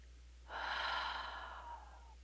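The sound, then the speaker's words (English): A deep breath taken together by a group, heard as one long, breathy inhale lasting just over a second that swells quickly and then eases off, with no talking. “Maybe we just take a moment now to take a deep breath together.”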